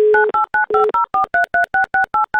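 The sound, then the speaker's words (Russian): Touch-tone telephone keypad dialling a phone number: a rapid, even run of about a dozen short, loud two-tone beeps separated by brief gaps, the first beep longer and overlapping a steady lower tone. “Номер набран”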